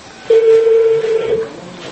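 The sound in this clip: A single sustained telephone tone on a call placed to a consulate holds one steady pitch for about a second, fairly loud over faint background noise.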